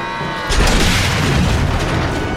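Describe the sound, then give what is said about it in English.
A destroyed plane cabin crashes down onto the jungle floor, landing on its end and toppling onto its side: loud roaring rumble, with a heavy boom hitting partway in and the dense crashing noise continuing afterward. “The destroyed cabin lands on its end and topples onto its side.”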